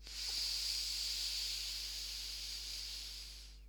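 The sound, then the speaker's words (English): A deep breath taken in through the nose and let out through the mouth, heard as one steady, airy hiss that lasts a few seconds and fades at the end, with no talking. “take a big deep breath in through the nose and out through the mouth”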